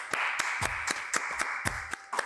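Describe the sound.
Clapping to welcome a guest on a talk show, a steady run of sharp separate claps at a fairly even pace, with no talking.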